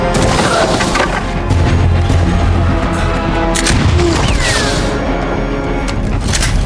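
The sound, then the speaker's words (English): Shotgun blasts ring out in a film fight scene as a few sharp, loud booms crack through dense, loud background music that fills the whole stretch. “Muriel notices Jackson reaching for his gun. She throws Gretel away from her as she turns to divert the bullets.”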